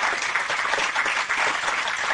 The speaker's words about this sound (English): I'd like to give a round of applause to Michael today